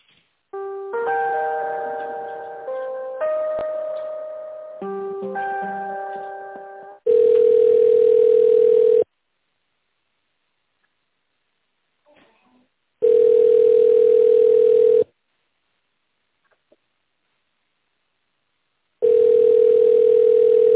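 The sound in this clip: Telephone ringing tone during a call transfer: three long, steady mid-pitched tones evenly spaced by silent gaps, preceded by a short electronic melody in three phrases.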